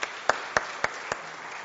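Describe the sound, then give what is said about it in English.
Applause for confirmands at a church service, heard as a thin patter of clapping with a few sharp, evenly spaced louder claps punctuating it, moderately loud and with no voices over it. “Another round of applause for our confirmands there.”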